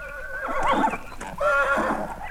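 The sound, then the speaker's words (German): A black stallion on a horse paddock neighs twice. Each whinny is a shaky, wavering run of high tones, and the second call is slightly longer. No one speaks. “führte er mich auf seine Pferdekoppel hinaus und wies auf einen Rappen, bei dessen Anblick das Herz eines jeden Pferdeliebhabers höher schlagen musste.”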